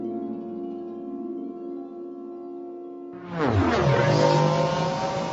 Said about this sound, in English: In the blackness to the north, Orin saw two sand people rocketing away on speeder bikes.